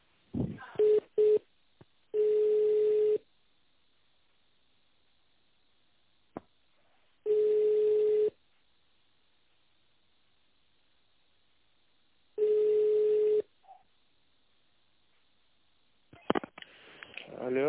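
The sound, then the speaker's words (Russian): Ringback tone while a phone call is connected to a company's tender department: three steady, evenly spaced mid-pitched tones, each about a second long and separated by long silences. A few short beeps come first and a brief noisy burst ends it. “Сейчас я вас соединю с тендерным отделом, минутку.”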